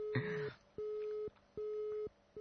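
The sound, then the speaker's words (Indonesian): Telephone busy signal after a dropped call: a steady mid-pitched tone pulsing on and off in even, evenly spaced beeps, with a short burst of other noise at the very start and no talk. “Terputus, sayang sekali ya. Dicoba lagi.”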